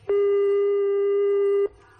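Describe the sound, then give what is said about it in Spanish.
A telephone call tone plays while the call goes unanswered: one long, steady tone at a fixed pitch lasting about one and a half seconds, heard alone, with a clean start and end. “Parece que no contestan a nuestra llamada.”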